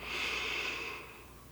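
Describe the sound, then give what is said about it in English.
A slow inhale through the nose during a guided mindfulness breathing exercise: a soft, steady airy hiss that holds for about a second and then gently eases off. “invite you to begin breathing in through your nose. So let's take a slow breath in”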